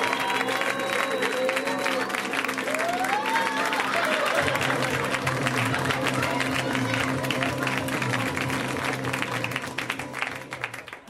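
An audience claps for a comedian being introduced on stage: sustained, dense applause from a crowd that holds steady for several seconds, then thins and fades toward the end.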